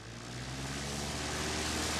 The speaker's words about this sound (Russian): Одномоторный самолет идет на посадку к ангару. Останавливается.